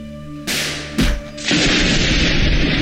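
A grenade explosion: a low steady hum, then a sudden loud burst, a second sharp blast a moment later, and a dense roaring rush of noise that holds to the end. No voices are heard.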